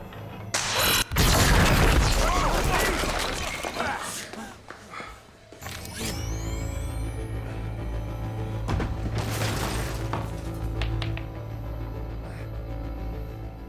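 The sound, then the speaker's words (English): A pool cue topples over in a pool hall and a gunshot follows; a few sharp, loud bursts stand out against a low, tense background, with voices present. “And you hear near the end there, it's a bit of a staring contest, and then a pool table stick falls over, which startles Eli, and he shoots it.”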